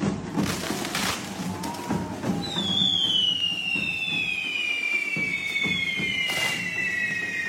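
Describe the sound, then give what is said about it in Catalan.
Fireworks and firecrackers at a Saturday-night correfoc staged by the Diables de Castellterçol: dense crackling and popping bursts, joined partway through by a high, piercing whistle that slowly sinks in pitch as the crackle continues. “Són els sons d'alguns dels moments que han brindat els Diables de Castellterçol dissabte a la nit amb un espectacular correfoc que ha estat tot un acte de masses.”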